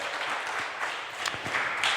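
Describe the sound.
Applause from an audience at an outdoor event with food and drinks: dense, steady clapping that fills the whole stretch at an even level, with a few sharper individual claps standing out.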